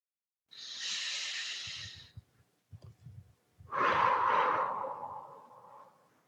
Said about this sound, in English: That tension you hold, you can let it go. A nice deep exhale.